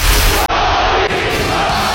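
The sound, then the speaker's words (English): A Russian crowd in the 1980s chants an American's name, a loud, continuous mass of shouting voices with one brief break near the start before the roar resumes. “A Russian crowd chanting the American's name in the 1980s.”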